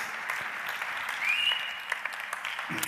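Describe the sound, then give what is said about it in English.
Audience applause for a volunteer at a prayer meeting: dense, even clapping that keeps a steady level from start to finish. “Let's give him a good hand.”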